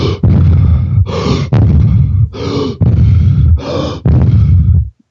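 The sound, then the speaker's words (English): Rapid deep breathing demonstrated in a breathwork exercise, with loud, forceful inhales and exhales alternating in quick succession over several cycles and then stopping abruptly. “Well, the breathing would sound like this.”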